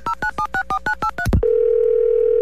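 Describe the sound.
Quick run of dual-pitched telephone keypad beeps, evenly spaced, followed by a short swoosh and then a steady, unbroken mid-pitched tone of an outgoing call, with no voices.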